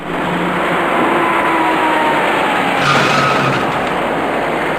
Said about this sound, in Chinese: 这辆正在右转弯的深色小客与一辆自行车的骑车人发生了相撞。